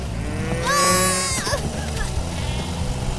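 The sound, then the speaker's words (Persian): A sheep bleats once, a wavering, nasal call that rises out of a busy, noisy background and then fades, leaving rumbling activity behind it. “مراقب باشی گوسفندا.”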